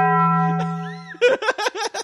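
A bell sound effect gives a single deep, sustained dong that hums steadily and fades, followed by a burst of several short laughs.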